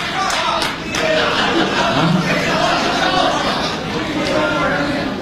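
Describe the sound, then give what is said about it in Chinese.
Applause and crowd noise at a Beijing opera performance, with energetic clapping mixed with voices and calls from the audience, loud and continuous with a small swell near the start. “谢谢谢谢谢谢您的掌声鼓励，这么热情。”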